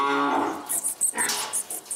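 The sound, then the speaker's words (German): Piglets on a farm being brushed and petted by hand: a low, drawn-out grunting call opens, followed by a run of short, scratchy brush strokes in an uneven rhythm. “Ich werde unsere kleinen Ferkel mal ein bisschen kraulen. Einmal mit der Bürste und mit der Hand.”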